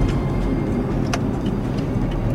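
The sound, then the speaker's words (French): Traffic with trucks in a port area makes a continuous low rumble of engines and tyres, steady and fairly loud, with faint brief hisses of passing vehicles above it. “Dans la zone portuaire, là, vous voyez, il y a quand même pas mal de circulation, des camions.”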